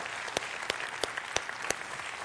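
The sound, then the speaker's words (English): Crowd applauding the armed forces at a Fourth of July celebration. A steady, fairly faint patter of many hands has a few louder, distinct claps standing out now and then. “Let's give a big round of applause for all of our armed forces people especially.”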